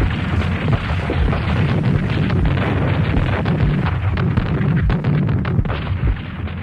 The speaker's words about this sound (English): Zero, commence firing. Fire!